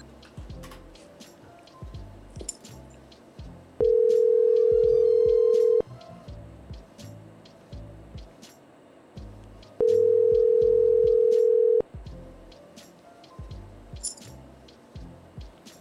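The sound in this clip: Ringback tone of an outgoing telephone call sounds twice, each steady tone lasting about two seconds with a long pause between, over a busy background of clicks and faint noises.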